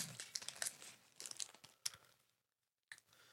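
A snack-bar wrapper with caramel and vanilla filling and fiber is peeled and torn open. Faint, dense crinkling and tearing crackles come in quick clusters, then a short silence and one last crinkle.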